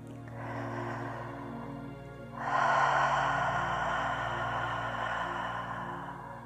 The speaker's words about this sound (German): Tief und vollständig und auch lang ausatmen.